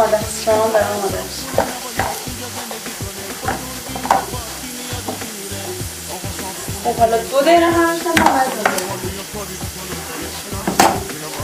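Food sizzles and fries in a pan while it is stirred. A constant hiss runs under irregular scraping and clinking strokes of the stirring.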